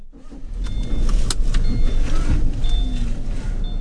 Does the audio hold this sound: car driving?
yes